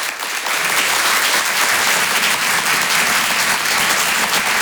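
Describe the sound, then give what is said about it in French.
Audience applause in a comedy club, a dense, loud roar of clapping that runs steadily throughout without pause. “Faites du bruit s'il vous plaît pour Avril sur Rire et chanson.”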